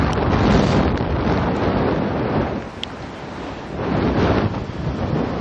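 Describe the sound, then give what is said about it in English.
Wind buffets a microphone attached to a cap, a loud, continuous rumbling roar that dips briefly midway and then surges again. “The wind shifted and blew my cap off, and the microphone is attached to my cap,”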